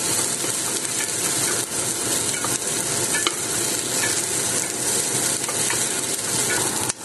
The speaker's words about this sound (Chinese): 慢慢咁炒佢啦，跟住咧我哋可以抌埋啲蒜头落去。